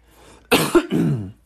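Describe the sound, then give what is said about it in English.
A single harsh cough in two quick, loud bursts, trailing into a rough, throaty exhale before quiet returns. “sorry, I felt that cough coming.”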